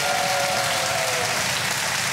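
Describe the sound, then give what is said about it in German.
Audience applause at a live bingo show, a dense, even roar of clapping that holds steady at full strength for the whole stretch. “Können wir noch mal einen richtig fetten Applaus”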